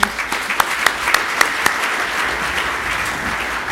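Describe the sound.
Audience applause greeting a speaker at a talk: a steady, even bed of clapping, with several sharp, louder claps standing out early on.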